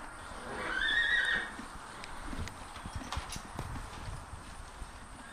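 A horse neighs once, clearly, then soft hoof clip-clops follow. The sounds come from Ojibwe spirit horses on a farm and stay faint overall against a low steady background.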